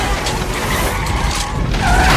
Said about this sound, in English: The Thumb Thumbs chase it outside into traffic. An SUV plows into the rack.